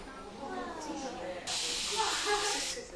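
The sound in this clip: A pressurized sprayer hisses loudly once the pressure is built up. A quieter stretch with faint tones gives way about halfway through to a bright, steady hiss that holds until the end.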